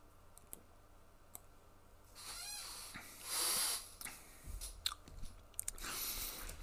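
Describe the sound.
Chewing while tasting food: quiet wet mastication with sharp clicks and small crunches, a breathy hiss in the middle and scattered mouth noises toward the end.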